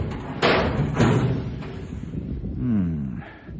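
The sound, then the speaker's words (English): A small hatch door's handle is turned clockwise and pulled up: two dull thuds, followed by creaky squealing as the hatch shifts, at moderate loudness. “this is the only little door up here. It must be this one. Now, let's see. He said to turn the handle clockwise and pull up.”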